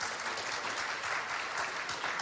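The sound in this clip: A game show's studio audience applauds to welcome a contestant, with steady, sustained clapping that is fairly faint and even from start to end.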